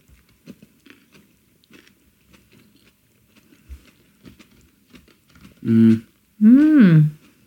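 Soft chewing of a sausage and onion snack with pickled cabbage, a scattering of faint moist clicks and crunches, followed near the end by two loud voiced murmurs from the eater.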